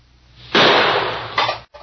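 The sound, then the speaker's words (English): Gunshots fired at a target during shooting practice: two loud, harsh blasts with noisy tails, the second shorter and following closely on the first. “Don't pull the trigger. Squeeze it. All right. Let me try it again.”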